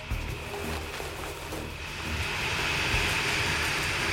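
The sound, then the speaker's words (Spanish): Ventilation fans and feeding-system machinery inside a turkey barn holding thousands of birds, a deafening, steady mechanical roar with a thin high whine running through it, growing slightly louder in the second half. “La vida en el corral sigue el ritmo de las máquinas. La ventilación y el ruido del sistema de alimentación son ensordecedores.”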